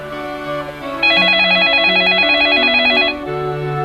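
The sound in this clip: A telephone rings with a single warbling electronic trill lasting about two seconds, loud over steady low musical tones that continue before and after it.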